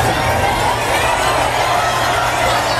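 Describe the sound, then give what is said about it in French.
A crowd of close to ten thousand at Flushing Meadows in New York cheering Roger Federer as he walks onto the centre court for a practice session, a loud, unbroken roar of cheering and shouting. “Oui, la magie Federer opère toujours. Écoutez l'ambiance hier à New York pour son entrée sur le court.”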